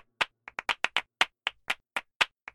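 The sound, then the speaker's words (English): Sharp hand claps repeat in a steady, driving rhythm within a music track. They are phased so they seem to pan around the listener's head, and about a dozen crisp, separate claps stand out against silence. “What you're hearing now is the claps. I picked up clapping after cello, you know. I phased it so that it's actually kind of moving around your ears.”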